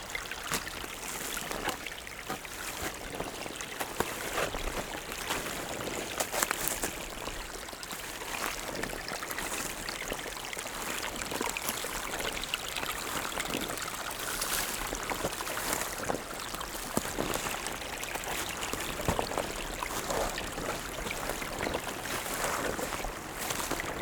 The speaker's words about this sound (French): le ruissellement de l'eau.